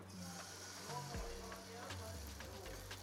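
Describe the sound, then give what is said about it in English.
A batter of mayonnaise and honey mustard fries in oil, giving a steady, faint sizzling hiss that runs under someone talking. “Let it fry until it's a little bit crispy.”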